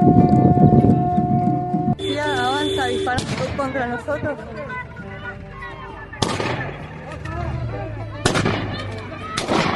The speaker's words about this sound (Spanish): Avanza disparando contra nosotros.